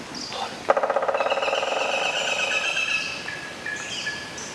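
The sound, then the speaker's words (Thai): A woodpecker drills a hole into a tree. After a soft start comes a fast, even run of sharp taps that slows and fades, with bird chirps going on around it. “เด็กๆคะมาตั้งใจฟังเสียงนกหัวขวานเจาะโพรงไม้กันดีกว่านะคะแล้วก็จดจำไว้เลยค่ะเข้าป่าเมื่อไรถ้าหากว่าได้ยินเสียงนี้มองหานกหัวขวานได้เลยค่ะ”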